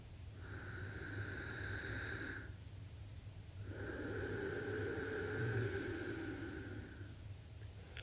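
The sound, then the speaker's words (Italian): A voice imitates breathing by drawing air in through the nose with the mouth closed, making two long, steady hissing inhalations separated by a short pause, soft and breathy. “l'ho appena simulato con il naso a bocca chiusa frizionando l'aria in entrata”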